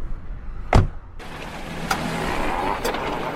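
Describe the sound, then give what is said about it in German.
A car door thuds once as a person gets into a car, followed by a steady rustling hiss and two soft clicks. “Ich kann Sie nach Kilchberg fahren. Kommen Sie, steigen Sie ein.”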